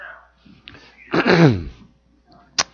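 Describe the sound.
One loud sneeze, a sharp burst whose tone slides downward, set between a few faint, brief noises before and a short click after.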